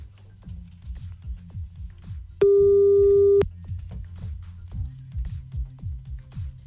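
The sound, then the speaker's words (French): A single steady telephone tone after a dropped call, lasting about a second. It sits loud and even above a thumping, rhythmic music bed that continues before and after it. “Oh bah il est encore parti. Oui, il est encore parti, c'est dommage, il a un mauvais téléphone, ça coupe tout le temps.”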